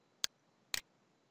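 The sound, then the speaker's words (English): Two crisp computer mouse clicks while signing in on a web page, spaced about half a second apart, the second slightly doubled; faint and sharp over near silence. “I'll scroll down and click the link labeled Sign In to join BizSpark.”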